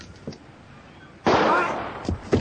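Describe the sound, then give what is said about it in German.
A single loud gunshot shoots a revolver out of someone's hand, a sharp, broad crack with a lingering noisy tail. A few faint knocks come before and after it. “Hat er uns den Revolver aus der Hand geschossen?”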